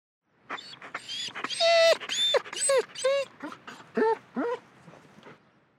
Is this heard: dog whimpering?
yes